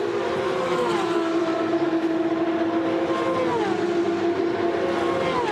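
A racing car laps a large race circuit, its engine a steady, loud droning whine whose pitch drops sharply twice, as with gear changes, over a constant roar.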